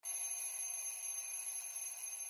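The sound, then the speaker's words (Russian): A rattling alarm clock rings in the morning, one shrill, buzzing peal that holds steady and unbroken throughout. “Дребезжащий звон будильника ворвался в сон, выдернув меня из такого желанного отдыха.”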